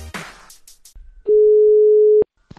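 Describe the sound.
A phone ringback tone sounds while a call to a mother is dialed. It is a single steady, mid-pitched tone lasting about a second, loud and alone, after a short burst of noisy sound.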